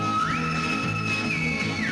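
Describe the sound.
Whistled melody from the theme tune of the TV series Colombo: a clear, sustained high tone that slides up, holds steady, then steps back down, carried over a steady low musical accompaniment.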